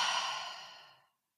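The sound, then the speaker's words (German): A slow exhale through the mouth during a breathing exercise, an airy sigh that starts fairly strong and tapers smoothly to silence after about a second, heard alone. “noch einmal einatmen durch die Nase, ausatmen”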